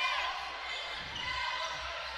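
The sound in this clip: A basketball is dribbled on the court during a Golden Eagles game, with soft thuds half-buried in steady crowd noise and talk.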